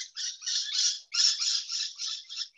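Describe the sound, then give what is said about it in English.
Birds call outside on a back veranda with faint, raspy, high chattering that runs in two continuous bursts separated by a brief gap. “So out here on my back veranda, I can hear the sound of the birds.”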